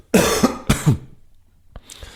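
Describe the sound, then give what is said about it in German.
Throat clearing: two loud, rough, guttural bursts in close succession, followed by quieter, brief breathy sounds. “ich habe es von einer sehr schlauen Person gelernt, dass Räuspern etwas vom Schlechtesten ist, was für die Stimme”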